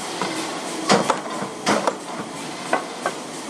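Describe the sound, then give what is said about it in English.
A creasing machine pulls in a sheet over a steady mechanical hum, with several muffled thumping strikes as it makes the spine of a board folder. “The noise you can hear is the sheet being pulled into the machine, and then you hear the first strike and the second strike”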